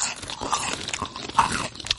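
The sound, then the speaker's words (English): Crunchy Bugles corn snacks being bitten and chewed close to a microphone, with a few crisp, uneven crunches and no talk. “I brought you bugles. I'm going to eat one on mic. I think you should. They say on podcasts you should eat crunchy foods on mic.”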